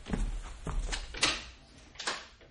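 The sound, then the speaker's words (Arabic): Someone knocks hurriedly on a door. A few sharp, uneven raps come in quick succession at a fairly faint level. “شوفي مين اللي مستعجل وبيخبط بسرعة على الباب ده يا وفاء”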